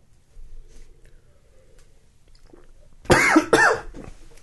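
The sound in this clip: Coughing after a sip of Woodchuck pumpkin cider went down the wrong pipe: two sharp, harsh coughs in quick succession that break a stretch of near quiet.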